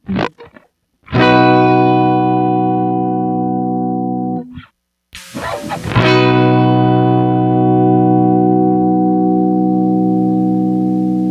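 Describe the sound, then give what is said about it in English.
An electric guitar played through a compressor effect, with two slow strummed chords. Each rings with a full, even sustain that barely fades, and the second holds steadily to the end. “Can you do like one slow chord just with the compressor? Like, so this is just guitar, and then the next part is just compressor.”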